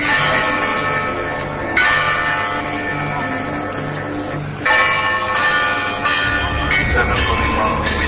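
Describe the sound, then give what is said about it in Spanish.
Church bells ring at the Fátima pilgrimage site, playing a loud, repetitive tune of sustained, overlapping tones that shift every few seconds, with no one talking over them. “Estas son las campanas, así suenan campanas, de un lugar llamado Fátima”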